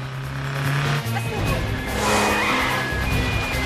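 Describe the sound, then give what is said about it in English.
A taxi cab's engine roars as its tires squeal and screech while it careers off through a city street in a chase, a loud, continuous engine drone laced with shrill skidding tones. “Bourne gets into the cab and careers off through the street.”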